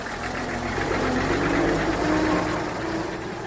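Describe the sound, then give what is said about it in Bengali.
A lorry engine runs on a mountain road, giving a steady, low, rumbling drone with a rough knocking texture that holds at an even loudness throughout. “দেড় দু মিনিটের মধ্যে লরির ইঞ্জিনের শব্দ মিলিয়ে এলো পাহাড়ের পথের বাঁকে।”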